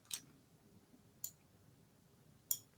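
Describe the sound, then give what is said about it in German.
A computer mouse button clicks in the background: three faint, crisp clicks at roughly even intervals of just over a second, with near silence between them. “Ich höre doch eine Maustaste da im Hintergrund”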